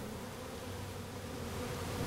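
Honeybees buzzing around a beekeeper, a dense, steady drone that continues unbroken at a low level throughout.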